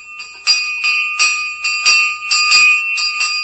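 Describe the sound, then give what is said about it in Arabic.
A school bell rings continuously in a rapid, steady pulse of bright metallic tones, loud and alone with no voices. “والله عال الجرس يضرب ومفيش بنت واحدة في المدرسة”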